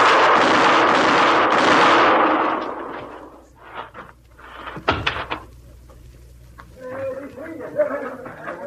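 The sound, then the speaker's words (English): Gunshots in an Old West showdown between two men, heard as a few sharp, short cracks after a long stretch of loud rushing noise, then a quieter hum with voices talking. “You hit him all three shots.”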